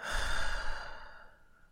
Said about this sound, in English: Breathe out. Breathe in. Breathe out.